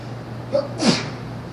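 A single short sneeze breaks into a religious lesson, fairly soft and muffled, a quick burst that fades almost at once.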